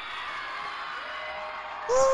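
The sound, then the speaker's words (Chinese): Crowd screaming at a concert: a steady, dense roar of many voices that holds at an even level throughout and grows slightly louder at the very end. “全场朋友唔该俾啲尖叫声。”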